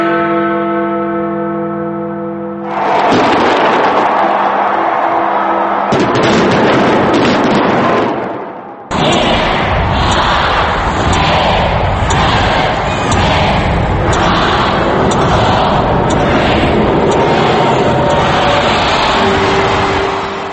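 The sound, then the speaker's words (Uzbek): New Year 2010 fireworks at a large celebration, with loud, dense bursts of crackling and booming running on without a break, after a short steady tonal passage at the start. “O'tayotgan hafta dunyo davlatlarida yangi 2010-yil katta tantanalar va mushakbozlik bilan kutib olindi.”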